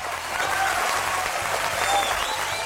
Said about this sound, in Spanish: felicitando a todos estos nuevos profesionales que ayer recibieron su título en nuestra querida Corporación Universitaria Minuto de Dios. Para ellos un fuerte aplauso